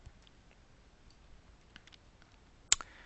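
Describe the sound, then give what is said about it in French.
A computer mouse click on a Restore button during a Time Machine backup restore: one crisp, isolated click against near silence, followed by a quick, softer tick. “Donc je vais simplement sélectionner, voilà mon événement Nouvelle-Calédonie, et je vais cliquer sur le bouton Restaurer.”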